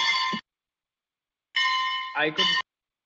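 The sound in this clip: An electronic bell tone sounds in two flat, steady bursts: a short one, then silence, then a longer one with a brief rising glide near its end. The tone is loud and bright, with no voices.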